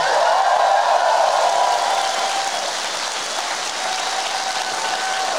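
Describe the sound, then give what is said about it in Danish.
Audience applause for a guest, a dense and steady crackling wash of clapping that stays loud for the whole stretch, with no voices standing out. “Kan vi lige få en ekstra hånd for Niels Nielsen?”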